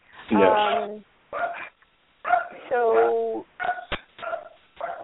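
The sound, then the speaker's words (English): A dog barks and yelps in a string of short, harmonic bursts, several sharp and a few drawn out, loud and uneven in rhythm, mixed with speech. “I can compete with the barking dog. I think he's going to stop. I think he's going to stop barking in a minute.”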